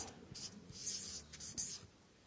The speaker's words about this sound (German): Wenn ich ein Wort anfange zu schreiben,